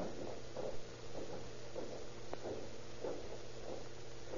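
Footsteps climbing a staircase, a steady, evenly spaced series of soft, muffled thuds over a low hum.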